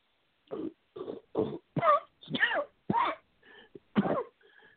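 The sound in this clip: A person coughs after inhaling water, in a fit of many harsh, throaty coughs in quick succession, some strained and raspy, trailing off into weaker coughs and throat-clearing at the end.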